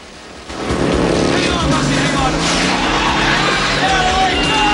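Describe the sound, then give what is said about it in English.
A police motorbike roars through a narrow alley lined with shops during a chase. Its engine noise is loud, dense and continuous, with shifting revving tones throughout. “A police bike chases them down the alley.”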